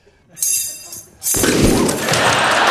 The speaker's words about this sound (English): The box with the dove in it suddenly explodes.